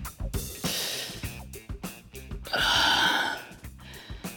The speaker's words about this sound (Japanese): すいません、ちょっと深呼吸させてもらいますね。